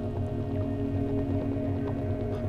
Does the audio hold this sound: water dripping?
yes